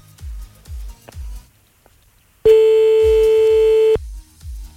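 A telephone ringback tone sounds while a caller redials a number: one loud, steady, mid-pitched tone lasting about a second and a half, with low rhythmic thumping beats before and after it.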